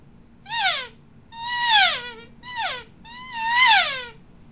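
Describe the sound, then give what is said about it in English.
A Phelps Easy Sucker inhale diaphragm elk call imitates elk calf mews: four high, whiny, nasal calls, each bending downward in pitch at the end, with short pauses between them. “So it sounds like this, makes perfect calf sounds.”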